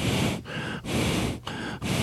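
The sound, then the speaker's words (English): Heavy breathing comes from a person in a series of loud, breathy inhales and exhales. The breaths follow one another quickly, with short pauses between them. “Don't breathe heavy. It makes me feel bad.”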